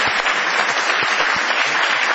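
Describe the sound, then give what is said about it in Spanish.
An audience gives an ovation at a live show in a small warehouse venue, dense, even clapping from many hands that stays loud and steady throughout without any voices. “Aprovechemos el envión de esta ovación para saludar a Patricio Barton.”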